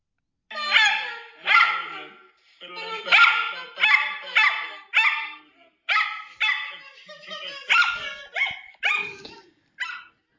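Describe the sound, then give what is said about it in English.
A miniature schnauzer barks and howls in a long series of many loud, sharp, yelping bursts separated by short pauses, its voice rising into drawn-out, singing howls between the barks. “That is the sound of my dog, the little miniature schnauzer Winston, singing. It's also the sound of him barking at traffic.”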